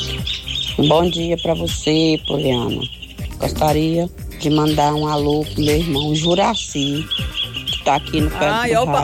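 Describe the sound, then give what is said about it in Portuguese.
Birds, including chicken-like clucks and squawks, call in the background while a person talks steadily over them. “Olha os pássaros cantando, que delícia”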